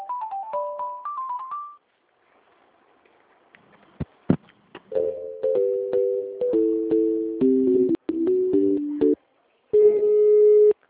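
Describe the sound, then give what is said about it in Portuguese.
Telephone line tones during an outgoing call: a quick sequence of short melodic beeps, a few clicks, then a series of stepped beeps falling in pitch, and a final steady tone. “Tô ligando lá de novo.”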